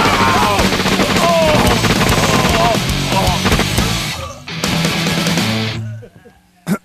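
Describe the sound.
Rapid, loud gunfire from a gun in a comedy skit rattles almost without pause, with shouting voices over it, then breaks off abruptly near the end.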